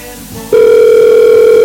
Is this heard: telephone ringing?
yes